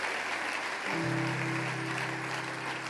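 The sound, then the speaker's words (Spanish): Church audience applause during a worship service, a quiet, steady hiss of many hands clapping, joined about a second in by a sustained low keyboard chord. “¿Cuántos pueden darle un fuerte aplauso al Señor? Dáselo fuerte.”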